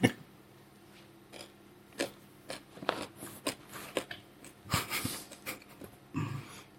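Crisp crunching as someone chews crispy rye malt at a whisky and gin distillery: many irregular, sharp bites and grinding crunches, with quiet breathing between them.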